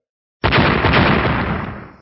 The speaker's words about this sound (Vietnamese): Tiếng nổ lớn từ bốn phương tám hướng truyền đến